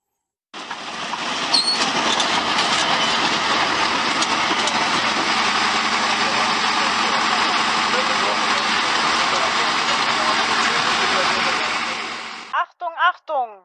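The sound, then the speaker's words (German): A replica of the first World War I tank drives through England, with a loud, continuous mechanical engine rumble and clatter that holds steady for about twelve seconds before stopping. “wollen wir euch kurz mal einspielen, wie es sich anhört, wenn solch ein Panzer fährt”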